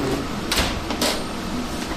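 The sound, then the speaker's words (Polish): A photo developing machine running: a continuous mechanical whir and hiss, broken by two brief, louder bursts close together. “To jest maszyna, która wywołuje zdjęcia. To jest takie urządzenie, które robi za mnie w tej chwili tę brudną robotę, także nie muszę wąchać chemii, nie muszę wchodzić do ciemni”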